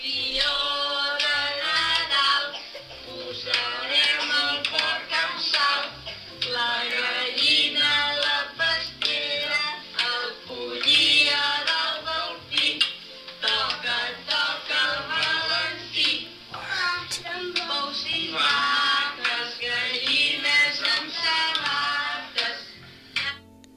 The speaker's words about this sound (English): I'm going to play you a little clip of a kid hitting the poop log with a stick, and his whole family is singing.